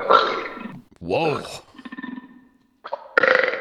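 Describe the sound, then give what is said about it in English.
A loud, croaky burp with a rumbling, drawn-out tail, with talking just before and after it. “I got a little burp in me right now. You gotta give me a minute.”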